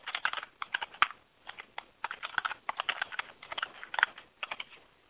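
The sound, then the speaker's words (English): Fingers type on a computer keyboard: many crisp, quiet keystrokes land in quick uneven bursts separated by short pauses, with no talk. “My cut and paste isn't working, so let me type it in here.”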